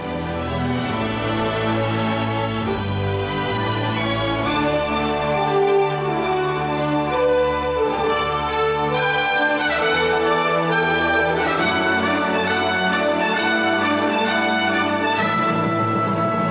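Instrumental movie music plays as a steady, full arrangement of sustained harmonic layers with a continuous, even loudness throughout, and no voices.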